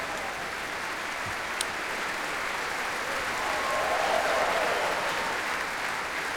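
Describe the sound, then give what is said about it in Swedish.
A concert audience applauds the orchestra's soloists after a Mahler symphony. The clapping is a steady, dense patter throughout and swells slightly louder toward the middle. “Orkestern lägger sig i applåderna. Och när olika solistiska insatser här hyllas, som ni hör.”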